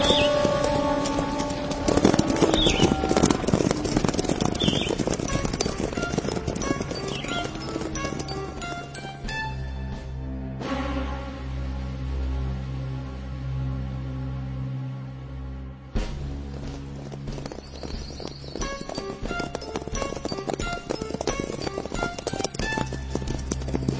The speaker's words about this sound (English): Let's ride to the top of that hill again.